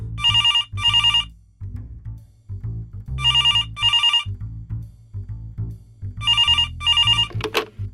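A telephone rings in three double-ring bursts, each pair of bright, trilling rings separated by pauses, with low tones sounding underneath.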